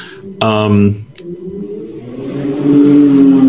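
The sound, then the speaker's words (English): A car going by outside: a brief buzzing tone, then the engine's hum swells steadily louder and rises slightly in pitch over a few seconds. “you hear a car go by. Yeah, sorry, my neighborhood is just nuts right now.”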